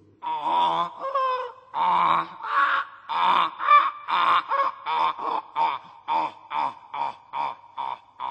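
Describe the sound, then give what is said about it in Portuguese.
A donkey braying, with many harsh, rhythmic pulses that start drawn out and become shorter and quicker, in a steady alternating hee-haw pattern. “Pois enganou-se outra vez. Isto é o zurrar de um burrinho.”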